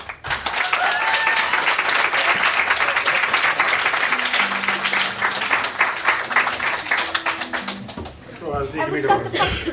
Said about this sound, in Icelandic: Gefið henni gott klapp.